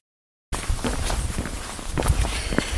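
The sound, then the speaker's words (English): Footsteps crunch along a walking trail on the Camino route toward Portomarín. After a short silence, steady footfalls begin and continue at a regular walking pace to the end. “Walking down the trail, on my way to Puerto Marín.”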